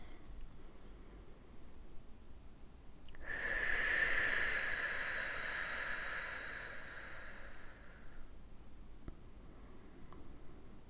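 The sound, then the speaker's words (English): One long deep breath during a guided breathing meditation: a soft, airy hiss that swells and then fades over several seconds. It is quiet and heard alone. “I'm going to take some deep breaths. Join me in that if you'd like.”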